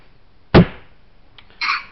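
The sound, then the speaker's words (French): A drawer is pulled open and pushed shut: one sharp, heavy thump, a small click, then a short sliding scrape. No voices are heard. “Donc pareil le tiroir, je tire le tiroir, je le referme.”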